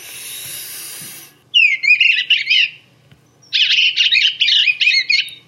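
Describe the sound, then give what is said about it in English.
Warbling song of bluebirds lingering around nest boxes in spring: two clear bursts of soft, wavering high notes separated by a short pause, preceded by a steady hiss, with no talk. “It really signifies spring when you hear the bluebird. Yeah, that's such a great sound, that little warble they do. It's really distinctive.”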